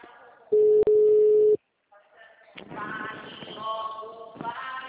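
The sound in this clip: A phone tone after a dropped call: one loud, steady tone lasting about a second, cut by a brief click. A short silence follows, then murmuring voices and background noise.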